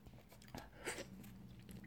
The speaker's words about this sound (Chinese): 好凉，我从冰箱刚拿出来的，现在嘴里含着果冻